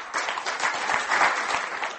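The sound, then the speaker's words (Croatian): Audience applause at a poetry award ceremony: a dense, steady patter of many hands clapping for about two seconds, fairly soft and even, with no voices over it. “Veći aplauz su ipak dobili Vešovićevi stihovi.”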